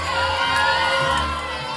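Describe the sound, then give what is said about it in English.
A packed, excited crowd cheers at a graduation ceremony in Ovens Auditorium. Loud, sustained shouting and whooping carries without pause. “Inside, it's a packed crowd at Ovens Auditorium and an excited one.”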